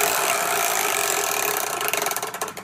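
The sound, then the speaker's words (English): A large prize wheel is spun, producing a rapid stream of ratcheting clicks over a noisy whir. Toward the end the individual ticks become more distinct and punchy. “can you spin that big old wheel that's behind you?”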